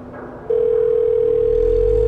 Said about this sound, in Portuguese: Tô tentando ligar pro abrigo. Perfeito. Tu tá ligando pro, pro abrigo.